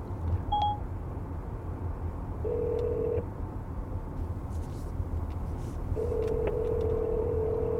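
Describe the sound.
Inside a car on a sunny highway drive, a phone call placed by voice command gives a short beep, then two longer ringing tones sound over steady road and engine noise.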